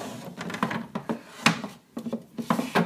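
An oven rack is slid back into a kitchen oven, making a run of uneven metallic clinks, rattles and scrapes, fairly quiet and continuous.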